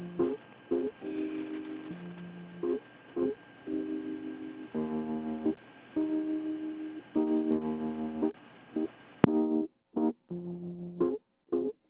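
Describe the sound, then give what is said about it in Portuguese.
Telephone on-hold tone during a call: tinny, band-limited electronic notes in a repeating melodic pattern, broken into short phrases by brief gaps, playing alone at a low, even level. “ele tá passando informação aqui, eu vi que está ligado duas vezes, aí eu botei ele em espera.”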